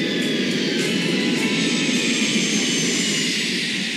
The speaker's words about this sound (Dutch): Dankzij deze continu-dienst konden de zware transportmachines van de Amerikaanse luchtmacht hier vrijwel zonder vertraging landen.